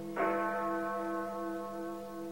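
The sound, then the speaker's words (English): A large clock-tower bell strikes once as it chimes nine o'clock. The deep strike sets off a rich, sustained ringing hum that fades slowly over about two seconds and stays fairly faint. “Next morning, as Big Ben chimes 9 o'clock,”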